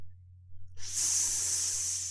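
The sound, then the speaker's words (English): A voice imitates a snake's hiss: after a short quiet start, a bright, airy, steady hiss begins and holds unbroken for over a second, alone over a constant low hum. “Yeah, with a hiss. And I'm making and hissing too.”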